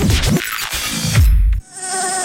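An Aedes mosquito buzzes in a loud, continuous whine that turns into a thin, steady, high-pitched hum near the end.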